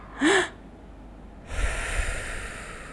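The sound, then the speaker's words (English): Controlled calming breathing: a quick, sharp intake of breath, then after a short pause a long, soft, airy exhale that trails off. “I like this tactic when you breathe in twice and breathe out once. So it goes like”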